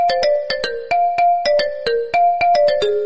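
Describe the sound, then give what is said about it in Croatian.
A phone ringtone plays for an incoming call. It is a loud, synthetic melody of quick plucked notes in a bouncy, repeating rhythm, heard alone without voices. “imam neki poziv, sad moram se javiti na ovo”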